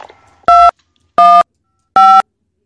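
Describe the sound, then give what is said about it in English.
Three loud, evenly spaced touch-tone beeps dial a phone extension, each a short steady dual tone separated by silence. “You may dial your party's extension at any time or hold for the operator.”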